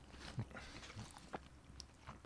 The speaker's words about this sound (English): Sorry, I'm chewing.